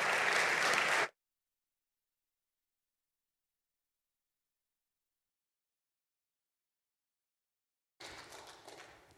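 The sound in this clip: A Bible Baptist church audience gives a welcoming round of applause for a guest speaker. The clapping comes in two brief bursts, a dense burst at the start and a softer one near the end, with a long silence between.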